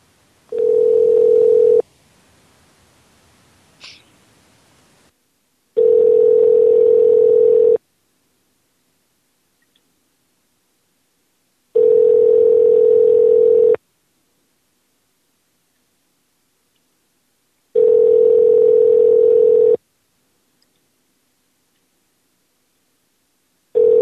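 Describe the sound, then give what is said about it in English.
Telephone tones come through during a call, four long steady beeps at one mid pitch, each about two seconds long and separated by evenly spaced silences, with a brief faint chirp after the first beep. “I was going to dial another number in the middle of the call.”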